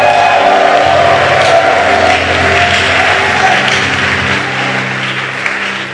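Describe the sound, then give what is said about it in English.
Clapping and cheering from a church audience during a worship service: a dense, continuous wash of applause and crowd noise with sustained tones beneath, holding steady throughout. “Clap your hands again and celebrate the Lord.”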